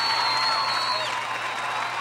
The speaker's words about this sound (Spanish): Un aplauso fuerte